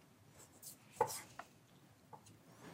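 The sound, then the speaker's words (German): A knife thinly slices a piece of meat with a fatty edge, cutting against the grain: a few soft, faint cutting strokes with small scraping clicks, the clearest one near the middle, with no talk. “Sieht auch wirklich sehr hübsch aus, was du da so dünn absäbelst.”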